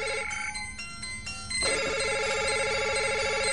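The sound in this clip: Electronic telephone ringtones sound in a political thriller scene, one tone pattern giving way to a rapid, pulsing, warbling ring that carries on steadily, with no talking.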